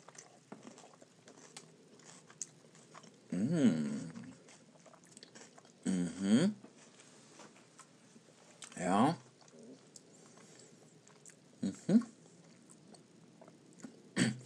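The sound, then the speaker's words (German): Someone eating the first bite of a home-cooked dish: faint, scattered chewing and biting noises come in a few short bursts separated by quiet stretches. “Jetzt ist das alles fertig und jetzt esse ich ja den ersten Bissen davon.”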